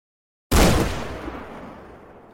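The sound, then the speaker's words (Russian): A single loud gunshot bursts out after a brief silence in a taiga forest of pine and spruce, its echo rolling away and decaying slowly over nearly two seconds. “Выстрел разорвал тишину тайги оглушительным громом. Эхо покатилось между могучими стволами сосен и елей”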